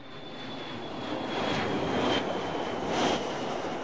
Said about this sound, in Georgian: თვითმფრინავი ფრინდება?